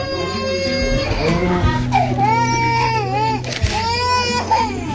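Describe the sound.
A newborn baby crying right after birth in high, wavering wails that rise and fall in bursts, with adult voices talking over it and a steady low hum underneath.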